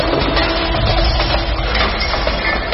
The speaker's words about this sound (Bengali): মুহূর্তে 1000 চিনেমাটির প্লেট ঝনঝন করে ভেঙে পড়ল মেঝের উপরে,